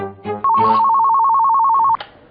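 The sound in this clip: A telephone rings with one sustained electronic trill of about a second and a half, loud and bright, preceded by a brief low sound and followed by quiet.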